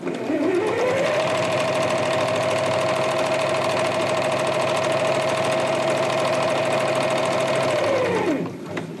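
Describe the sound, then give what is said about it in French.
Sewing machines running in a Red Crescent centre's sewing room give a loud, steady mechanical whirring hum. The hum rises in pitch as it starts, holds constant for several seconds, then winds down near the end. “Il y a quand même une autre pièce où il y a encore du bruit, c'est celle des machines à coudre, la salle de couture.”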